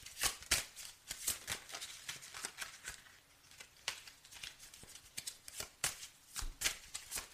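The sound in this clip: Playing cards being dealt, heard as many soft, quick flicks and slaps at an irregular pace, some in close pairs or clusters, with short pauses between them.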